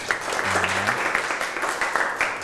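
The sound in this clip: Applause from a class after a quiz answer is revealed during a lesson: dense, steady clapping throughout, with a voice briefly heard near the start.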